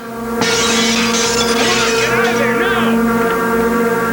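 A candy glass window smashes in a scene from the 1980 film The Fog: a sudden bright crash, then a long scattering hiss of breaking glass over a steady low hum and swelling tones.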